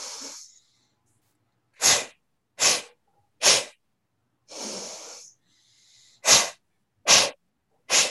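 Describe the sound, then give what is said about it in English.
Breathing in through the nose and out through the mouth during an ab exercise: six sharp, forceful bursts of breath and a couple of longer, softer breaths, separated by silent gaps, with no talking. “Breathe in through your nose and out through your mouth.”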